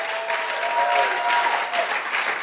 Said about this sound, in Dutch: I want you to give this beautiful lady a big hand. Geef haar een applaus.